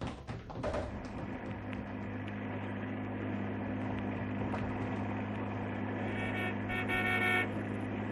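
A freight truck's horn honks in one long, steady, buzzy tone held over a low engine drone, with a brighter, higher tone briefly joining near the end.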